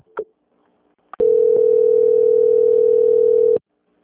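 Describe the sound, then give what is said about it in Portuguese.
Telephone line tone during a call transfer: a brief beep and a click, then one steady mid-pitched tone held for about two and a half seconds before it cuts off abruptly. “Eu vou transferir para o meu setor de auditoria, ele vai finalizar com o senhor, tá bom? Só aguarda aí. Tudo bem. Transferência.”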